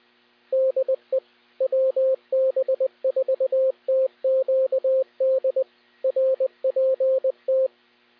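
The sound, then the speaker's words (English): Weather radio alert tones play during a severe thunderstorm warning, in irregular groups of many short electronic beeps at a steady pitch. They are loud and clean, with no voice over them. “I am going to leave the tones up for just a little while longer for any additional spotter reports”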